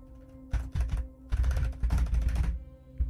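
Typing on a keyboard: clattering bursts of keystrokes come in uneven spurts over a low steady hum, with brief pauses between runs.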